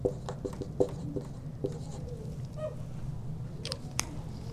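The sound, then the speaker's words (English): Scratchy strokes of drawing on a board during a lecture, faint and intermittent, with a few soft taps and brief squeaks over a low steady hum; no voices. “Might draw it perhaps that way.”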